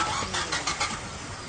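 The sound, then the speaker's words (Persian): A car engine cranks but fails to start, giving a few faint, rhythmic starter pulses that stutter without catching, then trail off into a low, quiet mechanical hum. “ماشین جبلی روشن نمیشه.”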